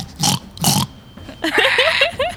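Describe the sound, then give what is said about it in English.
A person's voice imitating boar grunts during a tabletop role-playing game: two rough breathy bursts, then a rapid string of short, guttural, pig-like grunts and snorts, fairly loud and alone. “I guess I'm just trying to curse at her, but it's just boar sounds are coming out.”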